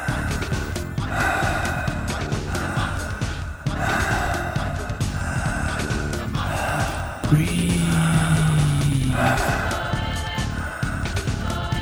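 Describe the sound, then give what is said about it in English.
Strong, deep breathing during a breathing exercise: forceful, rushing breaths repeat in a steady rhythmic cycle, loud and unbroken by talk. “Breathing more strongly as we get close to the peak now, really giving it your full commitment.”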